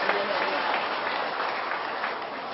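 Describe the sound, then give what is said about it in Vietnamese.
Audience applause during a Buddhist sermon, steady and dense clapping that holds at an even level throughout. “Tôi xin hoan nghênh những cánh tay leo que đó, cho chàng pháo tay.”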